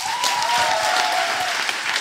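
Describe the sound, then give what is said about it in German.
An audience at a literary evening breaks into loud, dense applause, many hands clapping in a steady, unbroken wash. “Bitte einen ganz großen Applaus für Oleg Senzow.”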